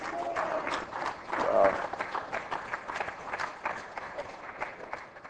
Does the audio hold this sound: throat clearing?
no